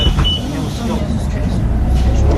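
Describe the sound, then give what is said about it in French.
Road traffic streams across a busy city bridge in Vilnius as a continuous, dense roar of engines and tyres with a heavy low rumble. The sound stays steady and unbroken throughout. “La circulation sur le pont vert ne s'arrête jamais.”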